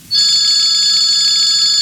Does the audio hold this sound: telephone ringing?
yes